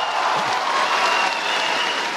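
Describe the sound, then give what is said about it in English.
Thousands of well-wishers lining the streets applaud and cheer for Pope Benedict as he passes. The clapping and crowd noise are loud and steady throughout. “Once again, thousands of well-wishers lined the streets, cheering and waving as Pope Benedict passed by, waving and smiling in return.”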